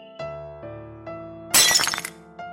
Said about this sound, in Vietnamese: Ly chè rơi xuống đất.